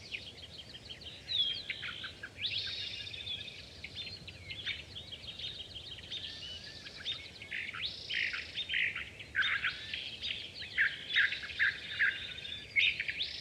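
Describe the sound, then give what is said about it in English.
California thrasher song from atop a chamise bush in blue oak foothills: a continuous run of loud, digital-sounding chirps and whistled phrases, high and varied, over a low steady background hiss. “Those loud, digital-sounding notes are from a California thrasher.”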